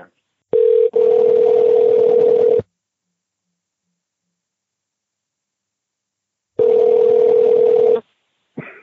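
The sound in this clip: A steady, mid-pitched telephone tone on a line being dialed for a call back, sounding in two long bursts separated by several seconds of silence, with a faint hiss around each burst.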